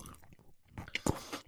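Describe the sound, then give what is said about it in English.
Someone chews and crunches Cadbury Snack chocolate, making faint, irregular crunches with one louder bite near the end. No one speaks. “It's the sound of me eating Cadbury snack chocolate.”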